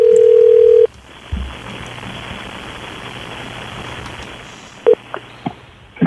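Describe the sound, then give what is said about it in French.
A telephone call begins with a loud, steady dial tone that cuts off abruptly, followed by a quiet, hissing line, then a brief tone and a few short clicks and blips near the end. “On va l'appeler. Donc, on l'appelle.”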